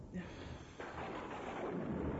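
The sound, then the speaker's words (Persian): A faint thunderstorm with rain: a low, rolling rumble of thunder under a constant hiss of rainfall, swelling slightly after the first second. “ببار باران، غرش کن توفان، من تحمل میکنم، من صبر دارم.”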